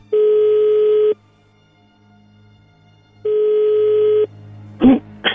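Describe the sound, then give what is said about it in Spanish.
A phone call being redialed rings out as two long, steady ringback tones separated by a pause of about two seconds. A short clattering burst follows near the end, and no voices are heard. “A ver, vamos a marcarle de nuevo y entras tú.”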